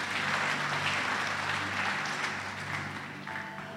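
A church audience breaks into applause after a scripture reading, a dense, even wash of clapping that stays steady and eases slightly toward the end.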